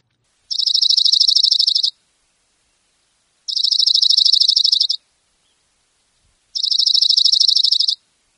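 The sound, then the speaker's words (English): Oregon Junco, a ground-hugging dark-headed bird, singing three high, rapid, even trills, each lasting about a second and a half and separated by clear pauses of silence. “It's the Oregon Junco, a ground-hugging bird, neatly feathered, with a dark head and lighter markings on the back and belly.”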